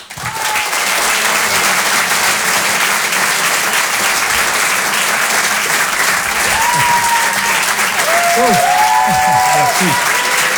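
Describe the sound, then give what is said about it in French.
Loud applause rises for a comedian at a Paris comedy show, a full roar of many hands clapping that swells in quickly and holds strong and steady. A voice rings out over the clapping near the end. “On peut l'applaudir très très fort, s'il vous plaît.”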